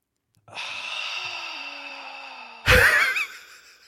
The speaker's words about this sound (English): I will be clipping that groan and using it.